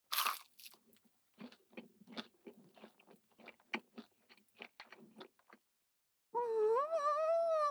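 Crisp biting and chewing of crunchy pan-fried schnitzel, a pounded, breaded cutlet shallow-fried in the pan, heard as many sharp crunches in an irregular rhythm, then a pause and a long, pleased hum from the eater.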